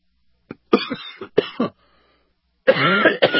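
Someone coughs and clears their throat after inhaling a piece of spinach while eating, in a few harsh, abrupt bursts separated by short pauses, with the longest fit at the end.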